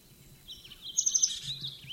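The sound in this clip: Bird calls from a bird in the distance: a few short, high chirps close together near the middle, faint over quiet background noise.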